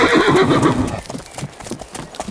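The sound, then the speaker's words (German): Shetland ponies setting off on a ride: a loud, rough whinny opens, followed by a steady patter of clip-clopping hooves with no voices. “Vertrau auf dein Pony, das hat eine Menge Erfahrung. So, jetzt steige ich auch noch auf. Und dann reiten wir los.”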